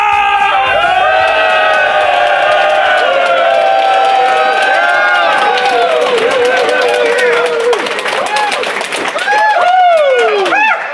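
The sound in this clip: A rowdy live audience in Atlanta cheers, whoops and applauds loudly and without a break. Shouted voices and whistling whoops rise and fall above the continuous roar of clapping.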